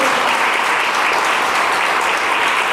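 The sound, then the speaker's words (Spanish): A church audience applauds during a service, producing dense, steady clapping that stays loud and even throughout, with no distinct voices. “entonces denle un aplauso a Dios, hermano”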